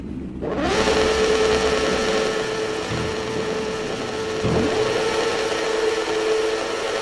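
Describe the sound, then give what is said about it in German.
Racing cars roar at the start of a Grand Prix on the Red Bull Ring in Austria in a racing video game. A loud, dense engine drone comes in sharply and then holds steady and continuous throughout, with no voices. “Beim Grand Prix auf dem Red Bull Ring stehen alle Fahrer am Start. In nur wenigen Momenten werden die Lichter ausgehen und sie werden auf der historischen Strecke von Österreich Vollgas geben.”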